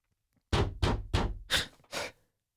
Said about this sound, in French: C'est quoi ça? Toc, toc, toc.